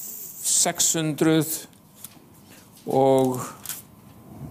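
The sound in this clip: Bible pages rustle and flip as someone turns to the Psalms. Short, papery swishes mix with a voice speaking.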